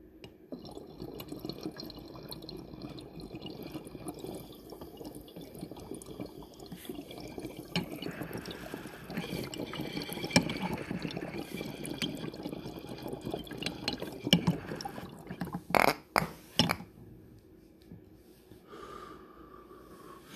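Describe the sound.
A bong bubbles steadily while someone takes a long dab hit, a continuous wet gurgling that runs for most of the time, then a few sharp, louder bursts near the end before it quiets.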